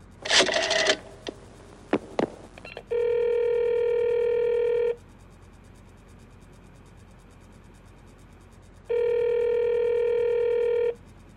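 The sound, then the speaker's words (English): Telephone sounds from a call being placed directly to a Murray Hill exchange number: a few sharp clicks and bursts at the start, then two steady, loud ringing tones, each about two seconds long, separated by a long silent gap. “Operator, try that Murray Hill 70093 number for me just once more, please. You may dial that number direct.”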